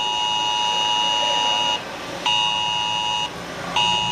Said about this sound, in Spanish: Suena S-Alert en Alcuéscar.